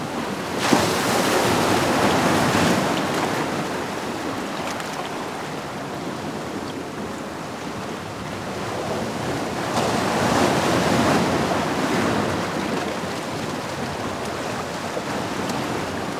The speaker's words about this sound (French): Vous n'avez pas le temps d'aller voir la mer. Écoutez-la.